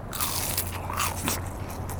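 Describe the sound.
Crunchy biting into a fried whale cutlet dipped in tartar sauce, with a continuous crisp crackle of breaded coating and a faint low steady hum underneath.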